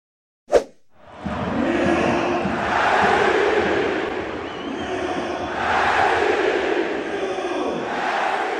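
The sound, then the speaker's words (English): PSG fans at the Parc des Princes welcoming Lionel Messi back as he returns to goal scoring after the World Cup; a short sharp pop leads into a sustained stadium roar that swells twice. “And that is the sound of PSG's Parc des Princes welcoming Lionel Messi back on his glorious return to goal scoring after the World Cup.”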